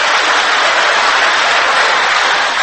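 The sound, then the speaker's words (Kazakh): Dense, continuous applause from an audience at an aitys poetry contest, steady and loud from start to finish with no voices heard. “Әрі айтыскерлердің айтқан әр шумақ өлеңіне қызу қол соғып, ықылас пейілдерін көрсетіп отырды.”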